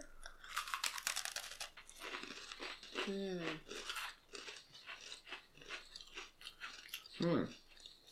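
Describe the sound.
Crunching and chewing of a character-themed Oreo chocolate sandwich cookie: a burst of crisp, crackling bites at the start, then softer, irregular chewing with a couple of brief vocal sounds.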